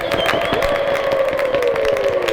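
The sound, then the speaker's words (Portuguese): A crowd ovation at the inauguration of a copper watchtower monument in a capital's central square, dense clapping running throughout over a sustained held tone. “Foi interrompido por uma ovação. Pediu silêncio à multidão e continuou.”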